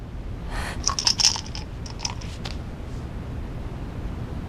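Someone eats and chews, producing a few faint, crisp crunches clustered near the start, followed by softer scattered chewing sounds over a low hiss.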